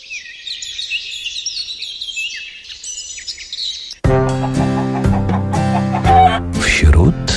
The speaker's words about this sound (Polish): No piękne ptaszki.